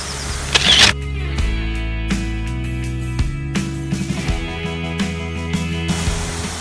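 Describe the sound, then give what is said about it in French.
A camera shutter fires while photographing a shoreline of water and rocks: one brief, loud, sharp burst early on, followed by a few faint clicks over a steady low hum. “Donc ça, je vais prendre une photo.”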